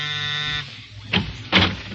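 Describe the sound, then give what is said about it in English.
A steady electric buzz sounds as a door is answered, then cuts off; after a short pause come two brief, moderately loud clunks as the door is opened. “Oh, it's you, Joseph. Come in, come in. Good evening, Randolph. Oh, I hardly expected you to answer the door.”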